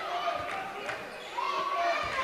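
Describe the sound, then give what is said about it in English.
A basketball dribbled on the court at an MTSU vs. Memphis women's college basketball game: soft, steady bounces under a commentator's continuous play-by-play voice and a constant arena hum. “Wheeler on the dribble out front.”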